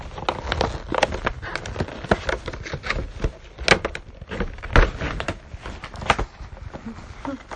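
Cardboard box being ripped open by hand: a rapid run of rough tearing and crackling bursts, several sharp loud rips standing out among many smaller scrapes.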